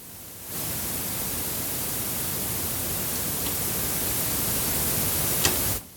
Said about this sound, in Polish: ustawię najgłośniej jak się da szum wzmacniacza w magnetofonie,